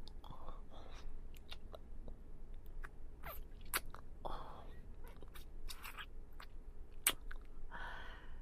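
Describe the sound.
Faint, crisp bites and soft chewing on a piece of chocolate. Small crunches recur irregularly over low breathy whisper-like sounds.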